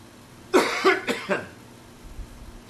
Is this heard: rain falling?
no

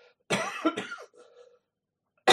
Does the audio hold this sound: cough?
yes

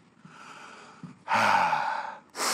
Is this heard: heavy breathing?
yes

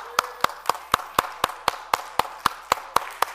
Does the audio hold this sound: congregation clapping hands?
yes

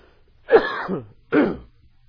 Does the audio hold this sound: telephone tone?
no

